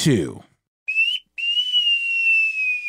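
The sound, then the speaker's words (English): A whistled signal for a turning maneuver, resembling a wolf whistle: a short rising note, a brief pause, then a long clear tone gliding slowly downward, after a snatch of voice at the start. “there is one of them that does resemble that classic wolf whistle sound that we heard Humphrey Bogart do”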